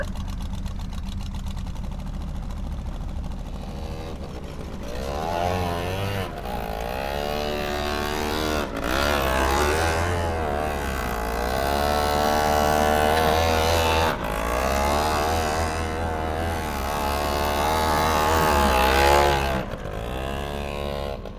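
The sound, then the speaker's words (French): A tiny 90cc engine on a three-wheeled vehicle runs continuously with a buzzing, steady hum whose pitch wavers up and down repeatedly as it revs. “Avec un 3 roues, mais ça le fait. C'est une toute petite cylindrée, c'est un 90 ça.”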